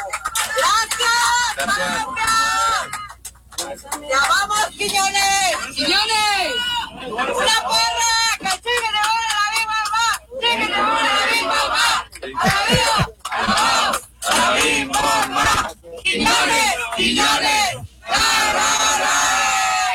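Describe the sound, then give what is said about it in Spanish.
Airplane passengers cheer and chant as a crowd, many voices shouting together loudly and almost continuously, broken by a few brief pauses. “las personas que estaban alrededor de él obviamente lo reconocieron, le aplaudieron, y cuando subió a este avión de esta manera es que lo recibieron”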